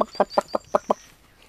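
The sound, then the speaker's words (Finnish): A human voice mimics a Finnish landrace hen clucking: six short, evenly spaced clucks in quick succession, then quiet. “Yritin surkeasti matkia maatiaiskanaa.”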